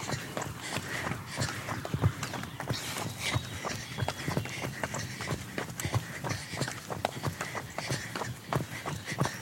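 Running footsteps during a fast stride interval in a run, many quick, evenly spaced footfalls in a steady rhythm, moderately loud throughout.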